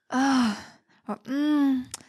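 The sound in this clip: A voice imitates a moan twice, giving two drawn-out, voiced sighing moans. Each is loud and breathy with a slight drop in pitch, and a short, faint breathy sound falls between them.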